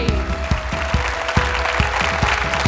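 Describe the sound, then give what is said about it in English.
A church audience applauds, with dense, loud hand clapping that runs steadily throughout and a few sharper claps standing out at a regular pace. “Give God a hand clap of”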